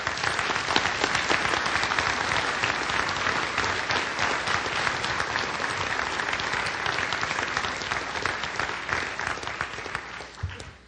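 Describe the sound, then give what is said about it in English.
Audience applause welcoming a speaker at an evening talk: dense, steady clapping from a crowd fills about eleven seconds at an even level, tapering off right at the end. “Please join me in a warm welcome for Francis Collins.”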